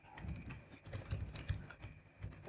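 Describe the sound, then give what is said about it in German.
Typing on a computer keyboard, a quick, irregular run of soft key clicks, quiet and with no speech over it. “Sprach's und tippte was anderes.”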